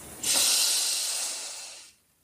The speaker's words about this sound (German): Atme langsam durch die Nase ein